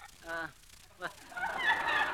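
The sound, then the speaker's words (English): A parrot squawks: a short, harsh call followed by a longer, grating screech, fairly faint. “How much will you give me for this parrot?”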